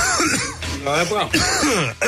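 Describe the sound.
Someone clears their throat with rough, raspy bursts, mixed with voiced, speech-like grunting sounds.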